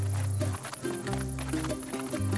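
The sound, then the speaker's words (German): Horse hooves clip-clopping as a horse is ridden, a steady, continuous drumming under sustained tonal music. “Jetzt reiten wir wie Papi und Mami auf einem Pferd.”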